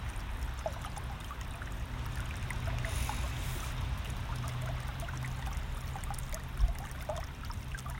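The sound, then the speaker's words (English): Water flows steadily in a creek, heard from a small island in the middle of the stream: a continuous, even rush with faint trickling detail throughout and no talk. “me being here doing the podcast, sitting out in the middle of the creek. I'm literally in a little island in the middle of the creek.”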